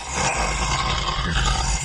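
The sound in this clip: A voice imitates a ghoul struck by radiant damage in a fantasy game, giving a harsh, sustained, throaty roar that stays loud and rough for about two seconds.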